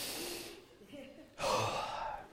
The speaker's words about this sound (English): Right now, everybody take a deep breath. Let's suck all the air out of the room.